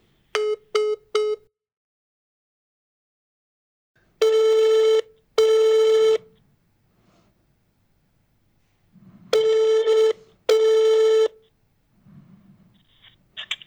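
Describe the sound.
Phone ringback tone during a call: three quick short beeps come first, then two double rings of a steady mid-pitched tone separated by a long silence. Faint low rustling fills the gaps.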